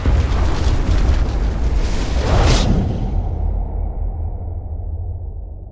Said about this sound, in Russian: Что-то оглушительно громыхнуло, и из самого центра столов с закусками мне навстречу хлынул огонь.